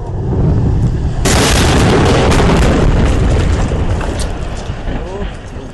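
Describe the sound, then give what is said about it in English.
A Russian Proton M rocket carrying three satellites explodes at launch: a dense, roaring rumble that turns sharply brighter and harsher partway in, then stays loud and churning to the end. “we're in Kazakhstan, where a Russian Proton M rocket loaded with three expensive satellites is about to experience a launch catastrophe.”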